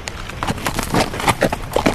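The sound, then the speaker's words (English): Horses being led down a ridge toward a river, their hooves clip-clopping in a steady but uneven walking rhythm. Many hoof strikes sound at a moderate, even level. “They started down the ridge toward the river, leading their horses.”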